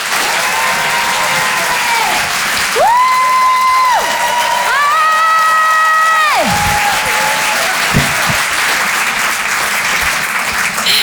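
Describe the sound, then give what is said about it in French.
Applause and cheering from a comedy club audience welcoming a comedian to the stage. The clapping is dense and continuous throughout, and a few sustained, stepped electronic tones play over it in the middle. “Je vous demande de l'accueillir, de faire un maximum de bruit, s'il vous plaît, pour Thaïs.”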